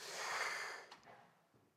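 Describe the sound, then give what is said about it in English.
A deep breath drawn in, led during a church service: one long, soft, airy inhale lasting nearly a second, followed by a brief faint breathy catch and quiet tail. “want everyone just to take a deep breath in”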